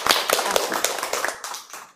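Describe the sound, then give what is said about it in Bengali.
An audience applauds a singer after a song performance at a school. Many quick claps overlap into a brief, lively patter that fades toward the end. “খুব ভালো হয়েছে, বসো, একটা হাততালি দাও ওর জন্য।”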